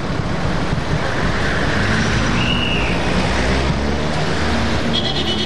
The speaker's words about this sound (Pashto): د بهرینانو موټر خو دغه د تیر شول، حرکت به وکړو.